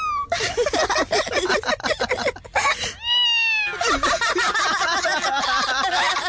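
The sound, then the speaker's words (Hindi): A kitten meows in a classroom, its high, wavering cry rising clearly out of a dense, continuous background of other sounds. “अरे ये बिल्ली की आवाज अपनी class में कैसे?”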